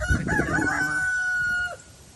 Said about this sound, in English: Look at our big rooster.